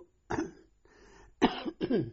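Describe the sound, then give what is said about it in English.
A man coughs a few times in quick, harsh bursts, with a softer throat-clearing rasp between the first and later coughs, all fairly faint and with no talk. “I seem to have a bit of a cough.”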